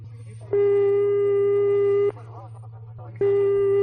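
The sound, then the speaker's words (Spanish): A ringback tone plays on a call to the police that has not been answered: two long, steady beeps of the same pitch, separated by a pause of about a second, over a constant low hum. “Parece que no contestan a nuestra llamada.”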